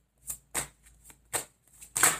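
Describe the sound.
Tarot cards being shuffled and drawn: several short, crisp riffling bursts separated by brief pauses, with the last burst the loudest, alone and without talk.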